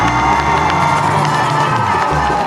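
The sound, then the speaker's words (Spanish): An audience applauds and cheers a singer at a live music performance, a loud, dense and continuous roar of clapping and shouting voices that holds steady without a break. “De veras, un aplauso para el gran cacique.”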